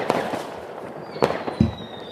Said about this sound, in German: Der raucht die Böller. Der zündet die Böller mit einem Glimmstängel.